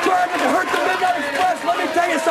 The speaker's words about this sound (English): Well, the crowd's too into it. You can't make it out.